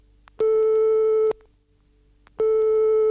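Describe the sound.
A telephone line tone plays while a call is being placed. Two steady tone bursts, each about a second long, are separated by a silent gap of similar length, with no voices.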